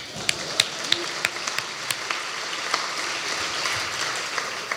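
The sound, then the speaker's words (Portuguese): Audience applause at a comedy roast: dense, steady clapping throughout, with many sharp individual claps standing out above the sustained wash of sound. “Por falar em falta de originalidade, uma salva de palmas para Francisco Menezes.”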